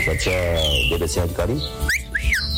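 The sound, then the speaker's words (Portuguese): A cockatiel whistling in bright, sliding chirps that rise and fall, mixed with a person talking over it. “É Calopsita aí, é? Calopsita?”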